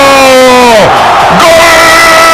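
A stadium crowd at Estadio Azteca erupts in a loud, sustained roar after Raúl Jiménez scores for Mexico, with massed cheering and yelling filling the whole moment.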